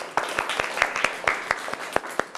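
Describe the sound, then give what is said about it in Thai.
Scattered hand claps from students applauding themselves after a warm-up exercise in a Thai classical dance class. A small group claps in sharp, fairly loud, irregular strokes. “เอาปรบมือให้ตัวเองหน่อย”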